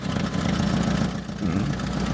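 An old, rare car with a worn interior runs at idle, its engine reportedly weak and its exhaust smoking. A steady low rumble holds throughout with a brief dip in level midway.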